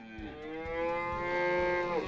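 A wild buffalo from a herd lowing: one long, deep moo, rich in harmonics, that holds a steady pitch and dips briefly at the end, with no talk over it.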